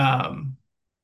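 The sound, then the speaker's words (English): A person clears their throat because of a tickle in it: one brief, rough, voiced rasp that cuts off sharply into silence. “excuse me, a tickle in my throat.”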